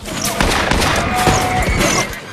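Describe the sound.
Pistol shots ring out in a Western-style ambush as rangers open fire on rebels: a rapid volley of sharp, loud gunshots that blur into dense firing.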